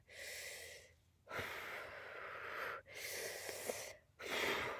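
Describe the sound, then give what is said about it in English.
Deep breaths, several long and loud breathy inhales and exhales, each drawn out over about a second with brief gaps between them. “I took the deep breaths.”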